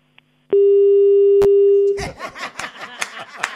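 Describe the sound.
Telephone busy tone on an unanswered call: one steady, loud, unbroken electronic hum lasting about a second and a half. It cuts off abruptly and is followed by laughter and lively talk.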